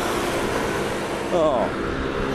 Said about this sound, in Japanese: うん、交通量あるし、高速道路あるし